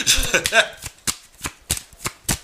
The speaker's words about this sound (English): All right, may I have some oracle cards, please?